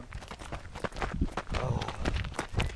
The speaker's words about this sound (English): We'll finish you off with some gentle trotting.